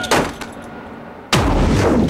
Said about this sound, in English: They open the handcuff door, and Danny throws another bomb.